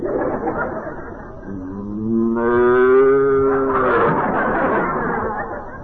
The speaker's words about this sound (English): Never had the heart to tell. He rode that cow everywhere.